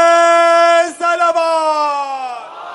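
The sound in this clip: A crowd shouts its response to a religious slogan call at a sermon, one loud sustained chant of many voices with a brief dip just before the first second, then trailing off toward the end.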